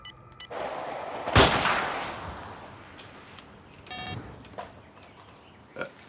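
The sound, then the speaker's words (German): A single loud rifle shot cracks out from a poorly sighted-in hunting rifle aimed at a wild boar. The sharp report is followed by a long decaying tail, and a few fainter sounds come after it. “Das Gewehr ist schlecht eingeschossen. Es schießt ja, wohin es will.”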